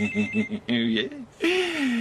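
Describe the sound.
A cellphone ringing with a repeated, pulsing electronic tone followed by longer high tones, heard under people talking.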